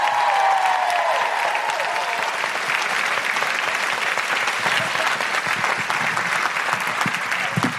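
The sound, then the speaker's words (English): An audience at a live show in Canberra applauds a performer being welcomed on stage. Dense, steady clapping from many hands keeps a constant loud level for the whole stretch of nearly eight seconds. “Put your hands together and make incredible woohooing noises for the wonderful Grace Petrie.”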